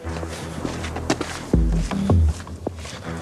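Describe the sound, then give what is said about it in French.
Footsteps on a hike up to the summit of the Kawah Ijen volcano. Irregular steps crunch over steady background noise, and a louder low rumble swells through the middle. “Après plus de 2h30 de marche, j'arrive enfin au sommet du Kawaijen.”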